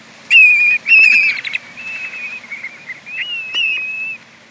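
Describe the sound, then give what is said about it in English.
A male plover gives its flight song while circling overhead above Arctic tundra nesting grounds: a series of clear, high whistled notes, some held and some sliding, with short breaks between phrases. “Here, a male circles overhead while giving its flight song.”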